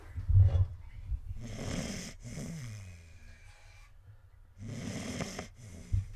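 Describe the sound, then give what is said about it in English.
A sleeping dog snores in a few slow, raspy breaths, each a soft rumbling wheeze with quiet pauses between them. “You can probably hear the dog snoring here. I'm going to move the microphone by her.”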